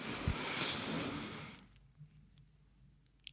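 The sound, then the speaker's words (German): A person breathes in deliberately through the nose, making a single soft, breathy hiss that fades into near quiet. The sound is faint. “Also bewusst durch die Nase einatmen.”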